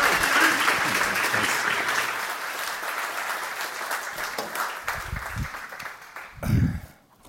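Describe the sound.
Sustained applause from an audience welcoming a guest speaker at a church gathering, a dense, steady patter of many hands that holds for several seconds before thinning and dying away near the end.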